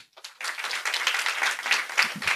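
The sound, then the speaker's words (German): An audience gives moderate, steady applause. It starts with a couple of scattered claps, then settles into continuous clapping that holds at an even level to the end. “Das ist so ein richtiger Sonntagsapplaus.”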